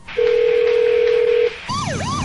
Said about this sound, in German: Wir rufen mal an. kann da mal jemand rangehen?